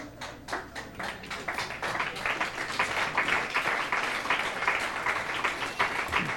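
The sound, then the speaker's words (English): Audience applause that opens with a few distinct claps, then swells into dense, steady clapping that continues at moderate level. “You know, thank you. Applause is very stimulating, but there's a falsity about it.”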